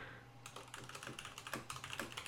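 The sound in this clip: Quick keystrokes on a computer keyboard as someone types a short note, a rapid run of soft clicks starting after a brief pause, over a faint steady hum.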